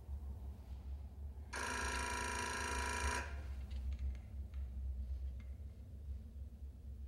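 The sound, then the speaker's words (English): A telephone rings in a prison cell: one buzzing electronic ring lasting under two seconds over a faint low hum, followed by a few soft clicks. “The phone in the cell rings.”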